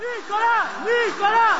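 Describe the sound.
Shouted cries of support from a small crowd as former French president Nicolas Sarkozy leaves his home on his way to prison: overlapping, sustained voiced calls that rise and fall in waves, fairly loud throughout.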